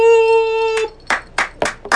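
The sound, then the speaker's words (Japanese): An audience at a recording in Kyoto claps a few times, the scattered claps following a sustained ringing tone. “お客様からの拍手いただきました。”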